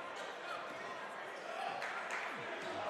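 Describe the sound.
Faint basketball bounces from a player dribbling during a boys' high school game, Exeter vs. Berks Catholic, sit under a steady wash of crowd noise and talk.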